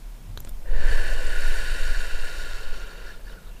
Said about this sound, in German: Und atme immer weiter ein und aus.